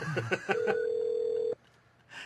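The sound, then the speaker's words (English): Ringing on the line of an outgoing telephone call: a single steady electronic tone lasting about a second, followed by a short quiet gap. “Let's see if I can call out. I'm calling him now.”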